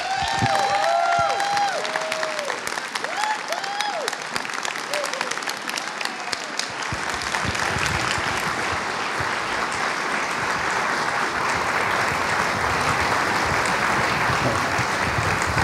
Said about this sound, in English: So it is with deepest pride and greatest pleasure that I welcome Disney legend, give it up for Mr. Jack Lindquist.